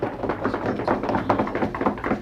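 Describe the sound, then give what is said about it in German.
Politicians rapping their knuckles on tables in approval at a parliamentary group meeting: many quick, overlapping knocks forming a continuous rattling patter, with no voices on top. “Sie klopfen auf die Tische, wie es Politiker so machen, wenn sie etwas gut finden oder wenn jemand geredet hat.”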